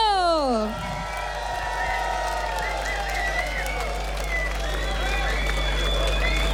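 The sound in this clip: Crowd cheering and applauding at the close of a concert, a loud, sustained roar of voices and clapping that holds steady throughout.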